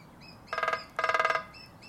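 Calls of a lesser spotted woodpecker: two quick bursts of sharp, high, evenly spaced repeated notes, the second burst a little longer, over faint chirps from other birds.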